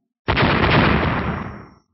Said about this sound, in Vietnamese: 2 tiếng nổ mạnh vang lên.